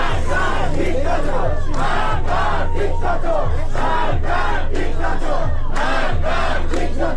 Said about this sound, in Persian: در جریان مراسم سوگواری برای مهران سماک، حامد سلحشور و سینا قنبری و مراسم تولد محمد حسین ترکمان، همگی از جوانان کشته شده به دست نیروهای امنیتی علیه جمهوری اسلامی و علی خامنه‌ای شعار سر دادند.